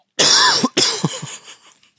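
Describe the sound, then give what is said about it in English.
Harsh, loud coughs from a smoker: two strong hacking bursts followed by a few weaker trailing coughs that fade out, with no talk over them. “I shouldn't have coughed over that. I'm realizing my cough sometimes coughs over your some of these punchlines.”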